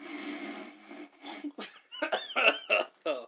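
Coughing after smoke hits the throat: a stretch of breathy, hissing exhalation followed by several short, harsh coughs in quick, uneven succession, fairly faint.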